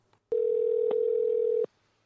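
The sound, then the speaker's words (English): Telephone dial tone heard while a call is being placed: a steady, even, mid-pitched hum that holds for about a second and a half, with a click at its start, another in the middle and one as it cuts off. “So hold on, let me get these two idiots on the phone.”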